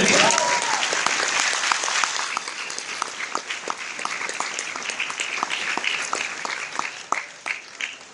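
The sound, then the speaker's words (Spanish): Audience applause at a motivational talk: dense, sustained clapping that is strongest at the start and gradually thins into scattered claps. “un aplauso a ustedes”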